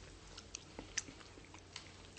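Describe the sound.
Faint crunchy chewing of a snack from Tsukiji market: a few soft bites and crunches in an irregular rhythm, with no talk.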